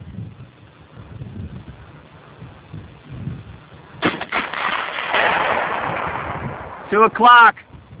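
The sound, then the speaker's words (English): A gunshot fired at a steel manhole cover target 21.5 inches across and 3.5 inches thick: a sharp report midway, followed by a sustained rumbling wash and a louder burst of rapid crackling near the end. “Target 2 is a manhole cover, 21.5 inches diameter by 3.5 inches thick. Target 2, observer up. Ready? Fire.”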